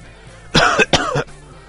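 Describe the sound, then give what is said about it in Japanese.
A person coughs from dust and musty air. Two loud, harsh coughs come in quick succession, each a rough burst, with quiet before and after. “私が思わず咳き込むと”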